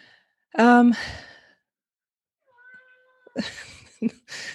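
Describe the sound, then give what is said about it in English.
A pet cat gives one loud, drawn-out meow with a wavering, nasal pitch. After a short quiet stretch, a person starts talking. “that was my cat who has some opinions. He might chime in again.”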